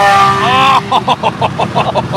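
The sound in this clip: A car engine revs hard during a brief street race up to 110: a loud, high harmonic whine that wavers in pitch, then breaks into a rough, pulsing throb.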